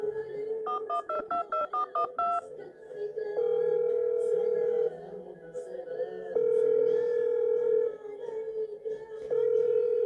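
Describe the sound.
Telephone keypad dialing of a randomly chosen number for a prize call: a quick run of short beeping tones, then a repeated, steady ringback tone that sounds in long, evenly spaced bursts and goes unanswered.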